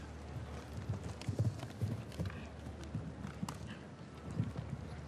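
Many rapid, rhythmic hoofbeats from a horse galloping on an eventing cross-country course toward a combination of jumps and a bank. The thuds are soft and low, with steady wind noise underneath.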